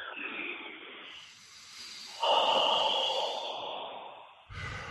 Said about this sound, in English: So, first I just needed to take two deep breaths.